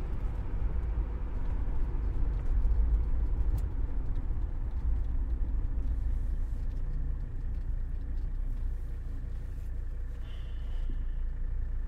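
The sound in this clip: Steady engine and road rumble from a car being driven, a continuous low, dense drone that holds at an even loudness throughout with no talk over it.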